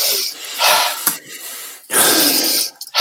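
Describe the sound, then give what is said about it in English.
Slow, connected breaths drawn in through the nose during a sighing-style breathing exercise, forming a few long airy rushes that run into one another with little pause, with no talk over them. “So how we do the circles is we do it like sighing but connecting the sighs together. So just draw it in through the nose.”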